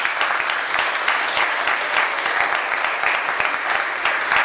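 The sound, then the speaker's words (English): Applause from a church audience during a Sunday service, honoring the church council. Dense, steady clapping holds at an even loudness throughout. “Let's give a round of applause for our council that”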